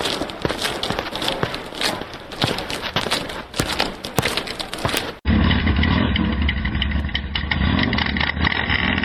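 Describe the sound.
A motorcycle engine runs with a loud, steady rumble, coming in abruptly partway through after a few seconds of clatter and knocks.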